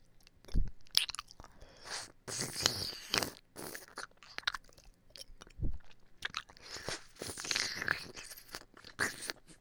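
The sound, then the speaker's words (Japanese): ASMR licking over a broad flat surface, close and wet, with many irregular smacking, slurping mouth sounds in uneven bursts and no talking. “こういう広いところを舐める音がいいのじゃないかなと思います。”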